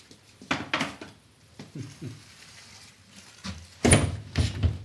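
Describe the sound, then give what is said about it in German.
A door being pushed shut: several scattered knocks and wooden clunks build to one louder bang near the end, followed by a few softer rattles. “hier musst du erstmal noch die Tür zumachen.”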